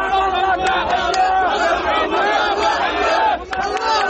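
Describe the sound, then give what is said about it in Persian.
Israelis cheer the release of hostages held by Hamas: a large crowd shouts and chants loudly in a dense, continuous roar of many voices, with barely any letup. “شادی اسرائیلی ها به خاطر آزادی شماری از گروگان ها از دست حماس.”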